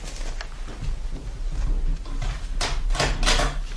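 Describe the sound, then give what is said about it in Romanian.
A door is unlocked and opened after a knock in a children's audio story: a few faint clicks, rattles and scrapes over a low background hum. “Bate cineva în ușe, bunică Nokomis? Descuie și poftește-l să intre.”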